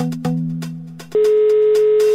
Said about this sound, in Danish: Og vi ringer til de første par numre på listen.